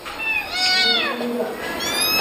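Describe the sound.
A rescued cat meows repeatedly while being fed goat milk, giving several loud, high, wavering cries that rise and fall in pitch, running close together over a hissy background.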